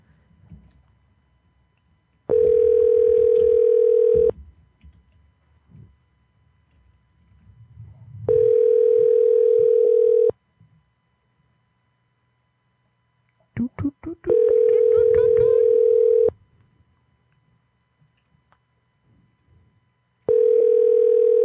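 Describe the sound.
Ringback tone of an unanswered telephone call: a steady mid-pitched tone sounds in four evenly spaced bursts of about two seconds each, separated by longer silent gaps, with the last burst cut off.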